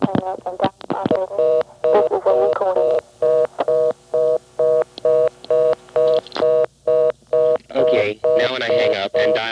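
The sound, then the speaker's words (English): Telephone line tones from a callback-circuit test. A short burst of sound at the start is followed by many brief, evenly spaced tone beeps that repeat in a steady rhythm. “Now to make it hold it up, I've got to dial two more digits and hang up.”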